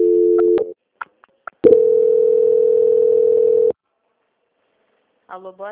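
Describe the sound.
Telephone line tones as a call is transferred: a short steady tone and a few clicks, then a long unbroken steady tone lasting about two seconds, silence, and a voice starting at the end.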